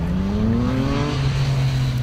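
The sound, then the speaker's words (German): Road traffic roars steadily below a rooftop terrace in Vilnius, a continuous loud engine rumble with one tone rising slightly in pitch partway through. “Unten dröhnt der Verkehr.”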